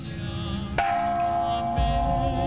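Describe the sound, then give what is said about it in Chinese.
A peace bell rung at a prayer gathering in New Jersey marking the September 11 attacks: one clear strike that leaves a steady, mid-pitched ringing tone hanging over a constant noisy background. “9点11分平安钟声也传递到美国新泽西。”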